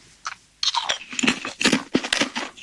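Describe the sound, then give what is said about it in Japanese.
Loud, crisp crunching of kettle-fried black pepper potato chips being bitten and chewed, with many dry, irregular crackling bursts and no talking. “おー、いい音だ。片揚げの音するよね。すごい、片揚げの音がする。普通のポテチと違うんですよね、音ね。”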